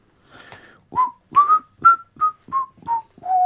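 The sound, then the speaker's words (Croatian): Whistling by a person at work, a slow run of about eight short notes, the first faint and the rest clear and evenly spaced, the tune drifting lower toward the end. “Da, zviždanje je dobro, samo ne tako veselo, nisi valjda sad tako sretan da radiš.”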